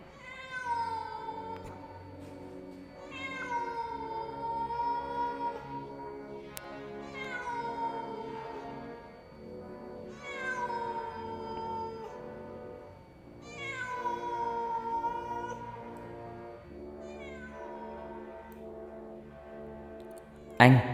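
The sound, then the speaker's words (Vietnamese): A cat meows eerily in a series of long, drawn-out wailing cries. Each call starts high and slides downward, repeating at fairly regular intervals with a plaintive, mournful tone. “Vẳng từ đâu đây có tiếng một con mèo kêu lên, nghe não nòng kinh khủng.”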